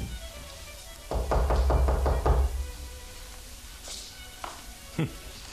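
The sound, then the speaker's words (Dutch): Rapid knocking on the door of a flat at night, a quick burst of several sharp raps in a row, then quieter with brief voice sounds. “Is daar iemand? Zei de reiziger toen hij op de maan verlicht de deur klopte.”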